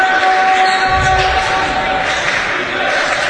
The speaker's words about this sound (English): Backs it out. Still dribbling.